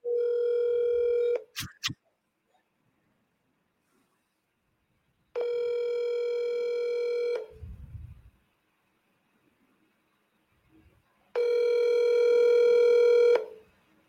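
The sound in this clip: A telephone call rings out: three steady, pitched ringback tones, each lasting about two seconds and separated by long silent gaps, with a brief click after the first.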